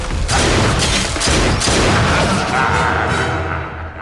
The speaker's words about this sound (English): He shoots at the monster.